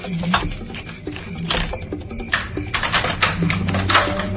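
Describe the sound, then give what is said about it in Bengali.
A key working a door lock, giving a quick run of small metallic clicks and rattles with no voices. “বুঝতে পেরেছি, চাবি দিয়ে দরজা খুলতে হবে।”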